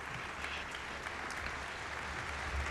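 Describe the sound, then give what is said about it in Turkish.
Sustained applause from a concert audience calling the performer back to the stage: a dense, steady patter of many hands clapping with no talk over it, holding at an even level throughout. “İzleyicilerin ısrarlı alkışlarıyla sanatçı Perihan Nayır Artan tekrar sahneye döndü.”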